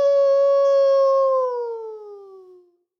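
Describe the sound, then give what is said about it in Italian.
A wolf howling at night: one long, clear, tonal howl that holds a steady pitch, then sinks lower and fades out over its last second and a half, heard alone. “Passò un giorno e il lupo ululava nella notte.”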